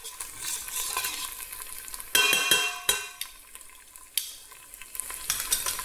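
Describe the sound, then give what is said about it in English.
Pesto sauce heating in an oiled pan for a pasta dish, a continuous soft sizzle broken by a few sharp scrapes and clatters of a utensil stirring against the pan. “Just roughly heat up the pesto.”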